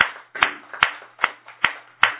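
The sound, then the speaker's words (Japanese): Rhythmic clapping celebrates a child's second birthday at a Konko church gathering: five sharp, evenly spaced claps follow one another at a steady, moderate pace, each snapping bright and decaying quickly, with no voices. “今日8月11日は佐藤優和君が満2歳の誕生日を迎えましたので、盛大な拍手でお祝いをします”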